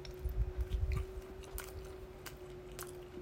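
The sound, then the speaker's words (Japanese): Biting and chewing a convenience-store ham and egg sandwich with boiled egg slices and onion dressing. Soft, moist chewing pulses cluster in the first second, then fade to faint munching over a low steady hum. “ちょっと真ん中いただきますね”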